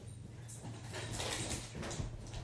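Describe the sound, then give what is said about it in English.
A dog playing joyfully, with scrabbling, scuffling bursts of noise that come and go unevenly over a low background. “That's my dog having a joyful time.”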